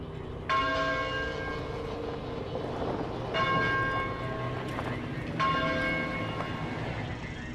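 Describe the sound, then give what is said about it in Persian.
A church bell tolls three times, each strike ringing out with bright sustained overtones that slowly decay before the next, over a low rumbling background. “این صدای ناقوس کلیسا هست؟ یه چیز تو همین مایه ها.”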